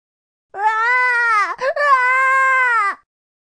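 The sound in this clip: A baby maiasaura crying: two long, high, tonal wails separated by a brief catch. Each cry holds a steady pitch before dipping at its end. The crying is loud and heard alone, without talking.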